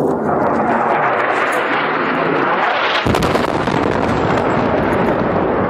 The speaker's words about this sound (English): Airstrikes like this one are a daily event in Yemen